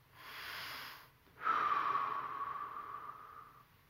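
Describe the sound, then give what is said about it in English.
A deep breath in through the nose and out through the mouth during a relaxation exercise: a soft, airy breath followed by a longer, steady exhale that slowly fades, quiet and without talk. “I want you to take a deep breath in through your nose and out your mouth.”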